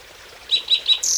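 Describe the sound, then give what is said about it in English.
Birds singing beside a flowing creek: three short, high chirps in quick succession, then a longer call, over a faint steady wash of background sound. “You can hear Kinney Creek.”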